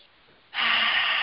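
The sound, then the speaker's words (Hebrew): A single deep inhalation during a guided breathing exercise starts abruptly about halfway through as a loud, airy rush and holds steady to the end, after a near-quiet opening. “תיקחו נשימה עמוקה, ותראו כמה שפע של אוויר אתם יכולות להכניס לריאות שלכם. ועוד אחת.”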